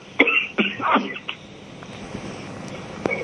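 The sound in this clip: Throat clearing and coughing from someone with something caught in the back of the throat: a few harsh, rough bursts in quick succession, then a quieter stretch and one more short cough.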